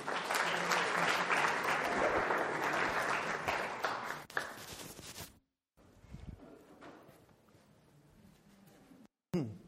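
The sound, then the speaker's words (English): Audience applause welcomes a guest speaker at a university morning lecture: loud, dense clapping for about five seconds that cuts off abruptly, followed by a quieter stretch with a few scattered claps. “So please put your hands together this morning and welcome our dear colleague, Dr. Drew Rubin.”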